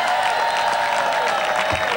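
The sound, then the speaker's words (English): An audience applauds Congresswoman Nydia Velasquez, co-chair of a governor's campaign, at a campaign event. The clapping is a dense, steady patter that runs throughout under a faint constant hum. “And our co-chairperson, Congresswoman Nydia Velasquez, let's give her a round of applause.”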